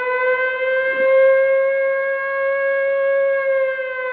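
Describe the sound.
An air raid siren sounds in a loud, steady wail that holds one constant pitch and is rich in overtones, sustained without a break for the whole stretch, with no voices.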